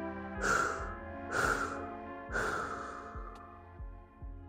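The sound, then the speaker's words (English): Slow breathy exhales during a guided relaxation breathing exercise: three soft, airy rushes of breath rise and fade in turn over a steady, sustained background tone. “Hold at the top. And exhale, release.”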